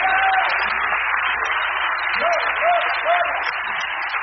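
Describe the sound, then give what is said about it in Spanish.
Applause from a church audience during an evening service: dense, continuous clapping runs steadily through the whole clip at an even loudness, with a few faint tonal sounds above it. “denle un aplauso al Señor Dios Todopoderoso en esta noche”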